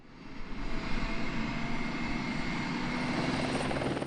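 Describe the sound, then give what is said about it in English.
An AS-350 A-Star helicopter flown by the Border Patrol gives off a steady, loud drone of rotor and turbine, with a faint high whine over a low rumble. “We're boarding an AS-350, commonly referred to as an A-Star.”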